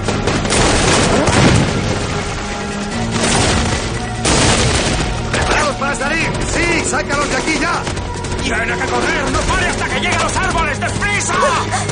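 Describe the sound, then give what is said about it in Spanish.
Grenade explosions and gunfire in a 2003 war-film battle between soldiers and rebels: heavy booms and dense bursts of shooting overlap throughout, loud and continuous, with shouting voices mixed in. “¡Granadas! Los militares lanzan todas las granadas que les quedan hacia las posiciones rebeldes.”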